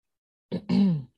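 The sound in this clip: Throat clearing from a tickle in the throat: a short guttural burst, then a longer voiced rasp that sinks slightly in pitch before stopping.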